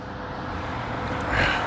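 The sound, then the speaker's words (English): A bus pulls in through city traffic, a broad steady rumble of engine and road noise that swells slightly louder toward the end. “Here's the bus.”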